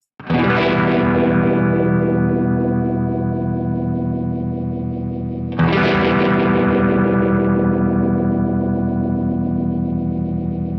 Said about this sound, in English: Now I have a really broad range to control the speed of the Univibe.